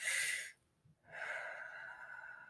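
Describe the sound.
A deep breath: a breathy draw of air, a short pause, then a longer, steady release of air. No talking.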